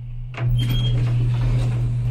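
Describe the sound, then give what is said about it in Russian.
Elevator doors sliding open with a brief whoosh, followed by a steady low mechanical hum and faint rattling that continue to the end. “Двери лифта открываются.”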